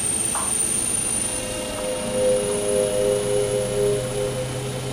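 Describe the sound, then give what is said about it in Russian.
Aircraft engine drone during takeoff from runway 24: a loud, continuous hum with a high tonal whine that swells gently and pulses slightly in its second half. “Вас понял, 5619 Янки, разрешаю взлет на полосе 24. Повторяю, разрешаю взлет на полосе 24, прием.”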